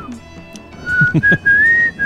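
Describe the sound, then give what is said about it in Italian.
A person whistles a short tune in imitation of a famous musician's whistling: a clear, fairly high single-note melody line that wavers and steps slightly upward, heard alone for about a second. “Oh, comunque John Lennon fischiava più o meno così.”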